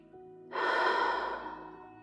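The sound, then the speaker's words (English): A single deep breath, taken while snuggled in bed, rises suddenly as a broad, airy rush, then fades slowly without any talk. “let's take 3 deep breaths.”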